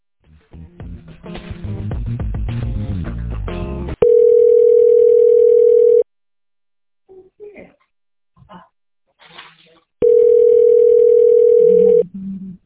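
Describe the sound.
A phone call rings through toward voicemail, with two long, steady ringback tones of about two seconds each separated by a pause. A stretch of other sound comes before the first ring, and faint scattered noises fill the gap.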